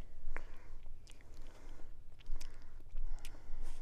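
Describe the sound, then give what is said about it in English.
Mouth sounds of tasting ice cream topped with whipped cream and Oreo: many soft, wet smacks and licks, quiet and close, with no talk. “Let me go taste the ice cream itself.”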